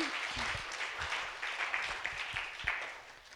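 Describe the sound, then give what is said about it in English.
Faint audience applause for a woman called up front at a bilingual English-Russian church gathering, a brief, fairly even patter of many hands clapping at low volume. “Can we give her a quick round of applause?”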